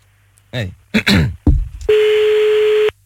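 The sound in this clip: A telephone ringing tone sounds as a call is placed. A voice speaks briefly, then one steady, mid-pitched tone holds for about a second before cutting off.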